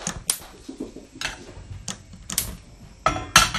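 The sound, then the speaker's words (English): A gas hob is switched on while raspberry preserve is made, giving a series of sharp, irregularly spaced clicks over a quiet background. The last clicks are the loudest. “Okay, so I'm just going to switch it on, the gas on.”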